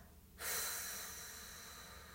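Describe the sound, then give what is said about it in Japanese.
A slow, drawn-out exhale during a relaxation breathing exercise. After a brief hush, a soft, steady breathy hiss begins and then fades gradually, with no talk over it. “はいそれではもう一回ゆっくり吐きます”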